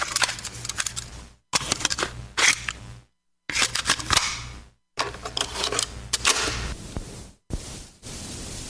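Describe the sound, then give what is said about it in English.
A cassette tape being popped into a tape deck: a few bursts of mechanical clicks and plastic clatter, separated by brief silences. “Nothing like that sound. The tape popped in the deck. We're ready to roll.”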